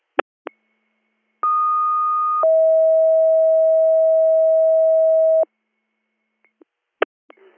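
Radio dispatch alert tones: a higher steady tone held for about a second, then a lower tone sustained for about three seconds, bracketed by a few sharp clicks before and after.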